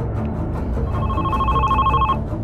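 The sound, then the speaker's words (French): A telephone rings once at the central police station in Nice, a bright, steady, warbling ring lasting over a second above a constant low background noise. “Le téléphone du commissariat central retentit.”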